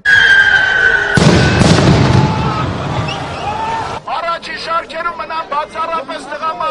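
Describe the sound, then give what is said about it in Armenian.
Stun grenade explosion at a protest rally: a sudden loud bang bursts in, followed by a noisy rumbling decay, then an agitated crowd of voices shouting and calling out. “հանրահավաքի ուղղությամբ քարեր նետվեցին, որոտած հատուկ միջոցների առաջին պայթյունը։”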